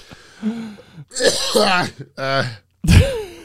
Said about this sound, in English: usually I cut out the coughs. That one's staying in.